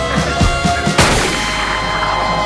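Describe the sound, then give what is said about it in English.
A single sharp pistol shot cuts in after a few low, rhythmic thumping pulses. It bursts out loudly and leaves a lingering tail that slowly fades. “She shoots one woman, then aims at the other. She pulls the trigger.”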